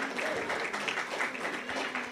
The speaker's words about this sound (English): She deserves a clap.